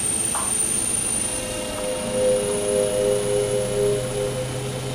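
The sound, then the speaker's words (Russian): A propeller aircraft takes off from a runway, its engine a steady droning hum with a sustained tonal whine. The loudness swells gently in the later part. “Вас понял, 5619 Янки, разрешаю взлет на полосе 24. Повторяю, разрешаю взлет на полосе 24,”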